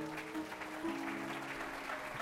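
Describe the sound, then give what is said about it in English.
Faint clapping from a church audience during worship, a soft, even patter with sustained tones underneath and no sharp individual claps. “Clap your hands to the Lord.”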